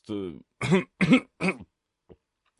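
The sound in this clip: A man clears his throat with a few short, gruff vocal bursts, which sound like a voice performing the throat-clearing, followed by a faint brief click.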